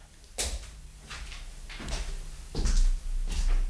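A door opens as someone enters a room, heard as a few faint thuds, soft knocks and rattles spread over a few seconds against a low background hum, with no voices.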